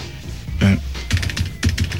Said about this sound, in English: That's me typing in the questions.